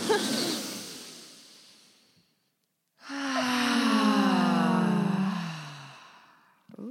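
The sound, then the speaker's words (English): A deep breath taken together at the start of a conversation: a breathy rush of air fades out, a short pause follows, then a long voiced sigh slides steadily downward in pitch before trailing off. “So let's start with a breath. Oh, that feels great.”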